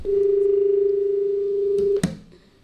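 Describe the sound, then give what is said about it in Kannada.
A telephone tone sounds after a call is cut off: one steady, even hum that holds for about two seconds and then ends with a sharp click. “ಕರೆ ಕಟ್ಟಾಗಿದೆ ಅನಿಸ್ತಾ ಇದೆ.”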